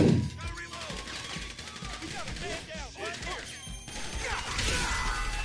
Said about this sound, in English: Who's blowing the fucking bombs up right in front of my the face?